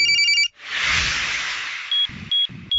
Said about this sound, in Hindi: इसमें उसकी मोबाइल की घंटी बजी